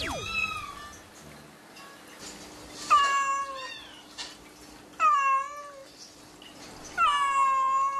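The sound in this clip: A grieving mother cat who has lost her kittens meows plaintively. Several drawn-out, wavering cries come a couple of seconds apart, with faint background noise in the gaps.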